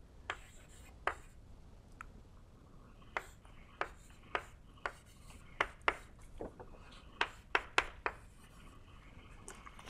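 Writing strokes during a lecture on vector fields and metrics: many short, faint scratchy strokes in an uneven rhythm, with no voice over them.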